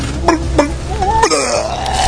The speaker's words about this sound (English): First my tummy feels bad, then I start to hiccup up. Then I lean overboard, and I always throw up.